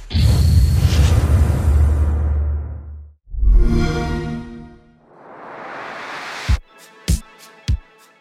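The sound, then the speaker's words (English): The Xbox One X console startup sound opens with a broad whooshing swell. A low thud follows, then a bright tonal shimmer and a fading airy wash, and it closes with three sharp, crisp hits. “That was the Xbox One X startup sound.”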